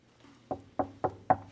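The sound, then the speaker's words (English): Four quiet knocks on a hotel room door by a housekeeper with a cart. The evenly spaced raps come in quick succession, soft and alone, with no voices. “rolls her cart to a room and knocks quietly.”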